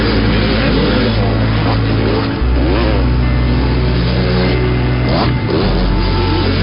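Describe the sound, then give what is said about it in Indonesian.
Loud motorcycle exhaust roaring as it approaches from behind on a winding road, a heavy, continuous engine drone with a few revving surges, with no voices. “terdengar suara knalpot motor yang sangat kencang akan menyusul kami dari belakang.”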